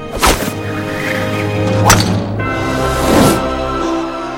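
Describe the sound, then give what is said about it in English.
A baseball bat hits a pitched ball during a game, heard as a few sharp, loud whacking impacts over a steady tonal background. “The ball soars into the air, sailing over the playing field. Everyone's eyes follow its path, including Victor. His mouth hangs open slightly, in awe of his own hit.”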